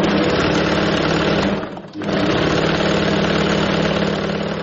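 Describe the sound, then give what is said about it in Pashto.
A tailor's sewing machine in Kabul runs steadily with a loud, dense whirring drone. It dips briefly near the middle, then picks back up without any talk. “د خیاطۍ د ماشین غږ دی”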